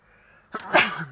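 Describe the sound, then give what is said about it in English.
A single sneeze: a faint breathy lead-in, then a sharp, loud burst that trails off quickly. “Excuse me, a little sneeze there.”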